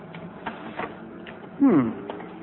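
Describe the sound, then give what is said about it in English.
A photocopier starting up and making a copy, heard as a short whirring mechanical burst with a swept, shifting tone partway through, set among quieter clicks and light handling noises. “you open this and put the paper in here. Then you press this button to start the machine and this button to get your copy.”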